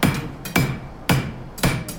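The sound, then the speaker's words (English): A blacksmith hammers bright-red hot metal on an anvil: four heavy, ringing blows land in an even rhythm, with lighter taps between them and a bright metallic ring decaying after each strike. “St. Louis takes a hammer and pounds the metal down on an anvil. It bends and sparks.”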